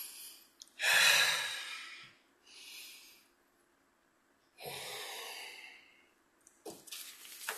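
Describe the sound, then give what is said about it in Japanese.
A few slow, deep breaths, taken as a pause before the final question of a quiz. Long airy inhales and exhales rise and fade one after another, some stronger than others, with no other sound around them. “次の問題、脳が少し酸素をいるかもしれませんので、大きく深呼吸を。”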